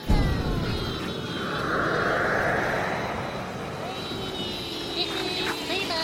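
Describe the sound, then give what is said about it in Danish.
Roar of a hot air balloon burner filling the balloon with hot gas, a steady broad rushing blast that runs unbroken throughout, swelling slightly in the middle before settling to an even level. “Men lad os få fyldt varm gas i ballonen, så vi kan lette.”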